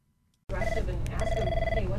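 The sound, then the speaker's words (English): A telephone rings at a regional poison center in Portland. The electronic trilling ring starts abruptly after a moment of silence and comes in bursts with a short gap between them. “At the Northern New England Poison Center in Portland, phones ring around the clock.”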